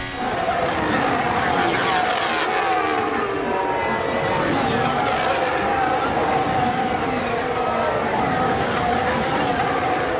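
Formula 1 car engine heard from Hülkenberg's onboard camera: a continuous, loud, high-pitched whining roar that holds steady throughout.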